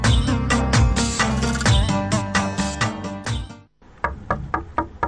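Knocking on the door of a village mullah: a few sharp raps in quick succession at the end, after a dense, busy stretch of sound.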